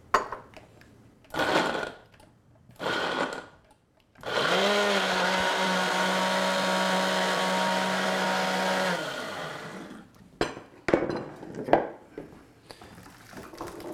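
A blender liquefies tomatillos, onions, green chilies and garlic in a loud, steady whir lasting about five seconds, with short bursts of clatter and knocking before and after.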